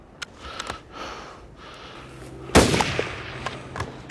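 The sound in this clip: Gunshots and bullet hits ring out in a video game: one loud, sharp blast cracks near the middle, with a few lighter clicks and impacts scattered before and after it.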